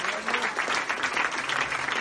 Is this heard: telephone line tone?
no